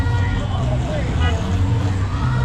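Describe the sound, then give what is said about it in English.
Street ambience at Olvera Plaza in downtown Los Angeles on a Sunday with a Hispanic cultural event under way: steady crowd babble over a continuous rumble of passing traffic. “This is Olvera Plaza. I think that's what it's called. And there's always something going on right here for Hispanic culture. So let's check it out real quick. Let's get a quick ride through.”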